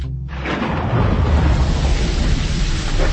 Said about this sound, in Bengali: আজকের এই মুষলধারা বৃষ্টি আমার কাছে অসহ্য মনে হচ্ছে